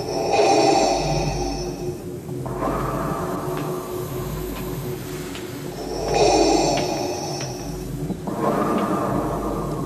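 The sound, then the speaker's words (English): A person imitates the mechanical respirator breathing of a masked movie villain: slow, loud, hissing inhales and exhales alternating through about two full breath cycles. “Or breathe like Darth Vader.”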